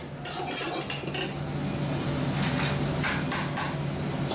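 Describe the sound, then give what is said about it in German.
Kitchen clatter and sizzling from a small, very hot restaurant kitchen where kingfish, okra and jackfruit curries are cooked, with steady stirring, utensil and pan clinks over a continuous loud frying hiss; no voices. “und schleiche mich in die Küche.”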